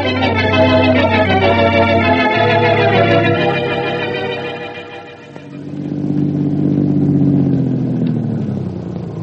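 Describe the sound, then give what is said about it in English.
A car engine drones with a steady hum as the car drives, dips in loudness around the middle, then swells again toward the end, with no voices. “Hope I didn't take it for too long a drive.”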